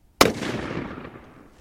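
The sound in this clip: A single shot from a scoped rifle: one sharp, loud crack followed by a long, gradually decaying tail.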